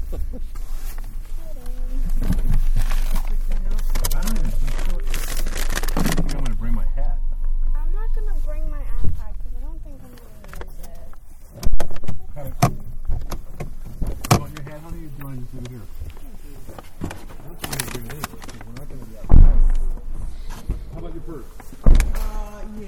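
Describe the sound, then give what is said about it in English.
Parking garage ambience recorded from inside a car: a low steady rumble runs under people talking throughout, with occasional louder bumps and clunks. “the top of the car and just record the parking garage. Yeah. Inside.”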